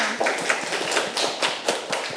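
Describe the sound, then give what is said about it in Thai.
Children clap for a classmate in a class lesson, a steady run of quick, bright claps at moderate loudness with no talk over them. “เก่งมากค่ะเด็กๆปรบมือให้เพื่อนค่ะ”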